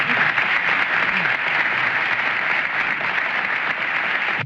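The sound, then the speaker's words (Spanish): An audience applauds a musical group at an evening tribute, steady and dense from start to finish before cutting off abruptly at the very end. “Para ustedes, para ellos pido un voto de aplauso.”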